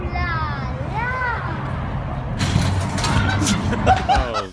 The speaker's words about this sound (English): this little kid says, "Oh la la," and then drives into a wall because he's looking at the girl. It sounds like this.